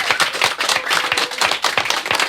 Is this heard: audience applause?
yes